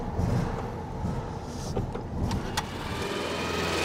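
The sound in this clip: A vintage split-window VW Beetle arrives. It is a restored barn find with new electrics and extra indicators. A low, steady engine rumble runs throughout, broken by a few brief sharp clicks. No voices.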